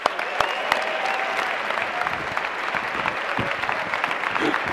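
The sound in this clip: Applause from a college audience welcoming a reverend as guest speaker, a dense, continuous wash of many hands clapping at a steady, fairly loud level throughout.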